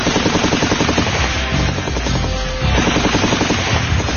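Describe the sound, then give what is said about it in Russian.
Rapid, chaotic gunfire from several assault rifles in a street firefight, a dense unbroken barrage of loud cracking bursts that runs the whole time with no pauses. “Беспорядочная стрельба из нескольких автоматов, потом гулкий удар.”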